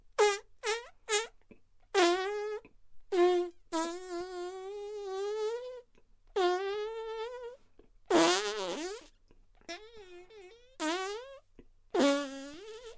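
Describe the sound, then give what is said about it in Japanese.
A long series of many deliberate farts, pushed out by straining while bent forward, come as short pops and longer buzzy, tonal blasts whose pitch wobbles, separated by brief silences. “後ろ向いて、お尻を突き出して、ちょっと力を入れるだけですぐにおなら出ちゃうんだ。見ててね。”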